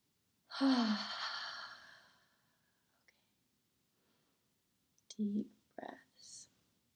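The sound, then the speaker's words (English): Deep breathing, in a quiet, close setting: one long, breathy exhale like a heavy sigh lasting over a second, then after a silent pause a few shorter, soft breaths in and out. “Deep breaths.”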